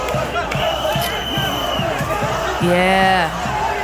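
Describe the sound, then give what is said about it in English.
A crowd in Melbourne cheers for tennis star Novak Djokovic after a court reinstated his visa, with overlapping shouts, whoops and voices and one long sustained yell near the end. “What you're hearing there is scores of people cheering for Novak Djokovic after that verdict.”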